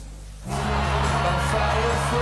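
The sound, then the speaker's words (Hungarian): Crowd cheering for Barack Obama at a US presidential primary rally: after a quieter half-second of low hum, a dense, loud roar of cheers and shouts breaks out and holds steady to the end. “Ilyen fogadtatást egy rockstar is megirigyelhetne. De a tömeg most az amerikai elnökválasztási év meglepetés politikusát ünnepli.”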